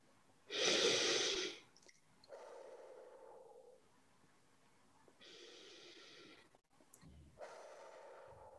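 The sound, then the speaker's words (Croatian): Slow, deliberate breathing, in through the nose and out through the mouth, repeated a few times during a guided relaxation exercise. Soft airy rushes and quieter pauses alternate in a calm, even rhythm, with no talking. “napravi udah na nos, izdah na usta tri puta”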